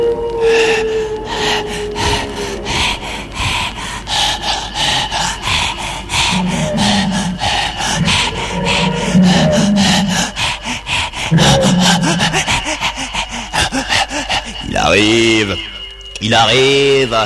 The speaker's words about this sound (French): Le voici. Écoute son halètement sinistre.